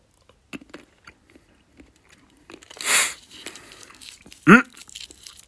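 Eating a whisky-filled chocolate with a bitter coating gives faint clicks and small crunches, then a louder crinkling rustle and a brief voiced hum near the end.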